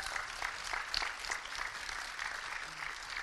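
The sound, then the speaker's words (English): An audience claps to welcome two guest speakers at a youth gathering: a faint, even patter of many hands that carries on without a break. “I want you to put your hands together”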